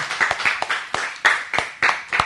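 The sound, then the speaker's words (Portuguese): Applause for a sound technician at the close of a session. The claps are sharp and distinct, coming in an uneven, scattered rhythm that suggests a few people clapping. “Queria pedir uma salva de palmas pro Thiago, nosso técnico que tá lá atrás.”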